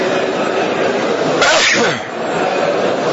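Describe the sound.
A single sharp sneeze interrupts a religious lecture. The noisy burst rises over the speaker's continuous voice and briefly drops it.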